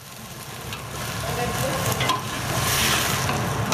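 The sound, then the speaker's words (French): Onions sizzle as they sauté in a pan for a ravioli filling that will also take green and red peppers, at a hospitality cooking course in a village near Madrid; a steady frying hiss with stirring swells gradually louder. “là, on fait revenir des oignons pour préparer la farce, puis on ajoutera les poivrons verts et les poivrons rouges, et au final, avec la farce, on fera des raviolis.”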